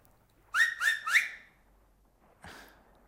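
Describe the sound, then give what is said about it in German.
Three sharp finger whistles in quick succession, each bright and piercing with a slight upward bend, followed after a pause by a fainter, shorter burst. “Am Mittag, wenn die Karawane kommt, auf meinen Fingern pfeife ich dreimal. So.”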